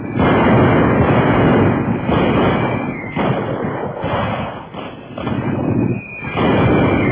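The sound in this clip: Artillery gunfire and explosions roar as a dense, continuous barrage in a battle, loud and rumbling throughout with a few brief dips rather than separate blasts.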